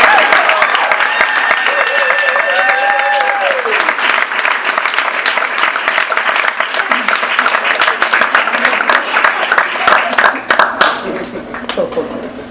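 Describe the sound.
Warm audience applause greets writers at an evening reading event. The clapping is dense and sustained, and a voice is briefly audible near the start.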